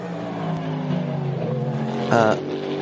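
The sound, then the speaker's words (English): The second-place race car powers out of the Arnage corner at Le Mans, its engine a steady tonal drone under a commentator's voice, swelling into a brief louder burst near the end. “I was thinking that was a car coming back to unlap themselves, but in fact that is the second place car coming out of Arnage”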